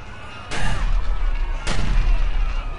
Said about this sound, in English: Who's shooting at us now?